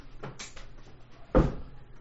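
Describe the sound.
A startled dog bumps into a little table, giving one sharp, muffled knock after a stretch of faint rustling.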